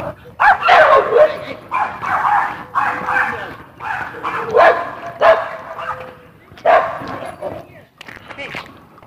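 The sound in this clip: Several dogs bark and yip over and over in loud, ragged bursts that overlap, with brief lulls between flurries throughout.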